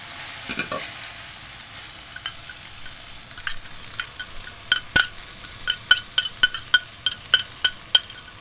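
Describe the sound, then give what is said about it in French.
An egg and potato mixture sizzles in a hot pan over high heat, a steady frying hiss under many sharp, rhythmic scrapes and taps of a utensil spreading the thick mixture. “là, la patate elle est bien, on remet le feu à fond et on verse toute la mixture sur la patate. Comme c'est super épais, on étale un peu.”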